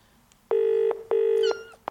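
Telephone ringing tone on a call placed by a pensioner in a retirement village: two long, steady, buzzing tone bursts of equal length with a short gap between them, loud and clear with no talk.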